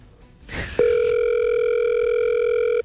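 Ringing tone on an unanswered telephone call: a brief rustle, then one steady electronic tone held for about two seconds before it cuts off abruptly.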